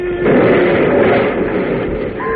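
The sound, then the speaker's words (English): A burning rocket crashes and explodes as a radio drama sound effect: a loud, sustained, rumbling roar that swells and holds steady with no voices. “Look, the rocket is coming down. Oh, Scott, it's on fire. They don't know the secret. They've done something wrong. It's going to land right near us. What do we do? Get down. It may explode. Here it comes.”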